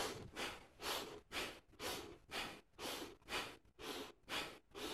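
Breathing exercise with rapid, rhythmic breaths pushed steadily in and out, many evenly spaced breathy bursts at a quick, regular pace. The breathing is faint and heard alone.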